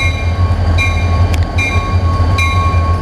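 A train runs past with a steady, loud low rumble. Thin high whining tones come and go over it, broken by a few brief bursts. No voices are heard.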